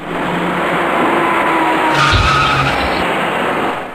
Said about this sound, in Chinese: 原本行驶在中间车道中的这辆白色小客突然减慢了车速，尽管跟在后面的深色小客及时地刹住了车